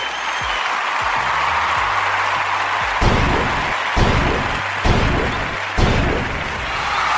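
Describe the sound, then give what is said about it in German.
Audience applause at a German comedy-style stage show: dense, steady clapping throughout, with a few heavier thumps standing out above it. “So, jetzt noch einmal Applaus. Also noch einmal Applaus und ich bin raus.”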